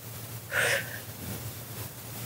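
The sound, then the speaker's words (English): A single short, sharp intake of breath taken as a deep breath in, faint and breathy, heard alone with quiet around it. “Let's take a deep breath.”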